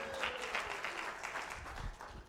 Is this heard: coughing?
no